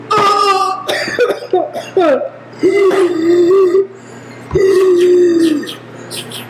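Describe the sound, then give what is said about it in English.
A man's voice imitates coughing during a tabletop role-playing game: several loud, rough coughs mixed with drawn-out throaty groans, broken by short pauses. “He's waking up. Ugh. He took a short rest. You hear him coughing in the room.”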